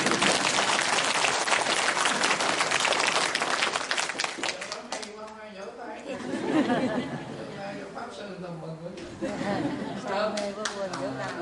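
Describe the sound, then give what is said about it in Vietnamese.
An audience applauds at a Buddhist dharma talk: dense, loud clapping for several seconds, then fading into scattered chatter and light laughter before rising again toward the end. “Vỗ tay đi.”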